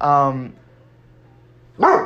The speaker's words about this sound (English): pardon me, that's my dog. But, all right, so I had to pause the video. I had to take care of that situation.